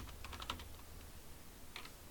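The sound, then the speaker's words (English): Faint typing on a computer keyboard: a quick cluster of light key clicks, a short pause, then a few more taps near the end, all over a low, steady background hiss. “Type in Highland Park.”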